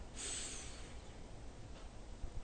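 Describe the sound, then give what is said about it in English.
A deep breath drawn in through the nose: one soft, airy hissing inhale near the start, followed by near silence. “we make a conscious effort to breathe in through our nose. And we take a deep breath in”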